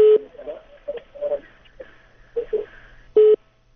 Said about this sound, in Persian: تماس ای شنونده ما هم قطع شد، شنونده دیگری را تماسشان را میگیریم.